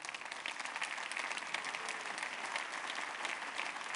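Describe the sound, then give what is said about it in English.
Audience applause welcoming children, a dense and steady wash of many hands clapping, sustained evenly throughout and fairly faint. “Come on, let's give them a hand.”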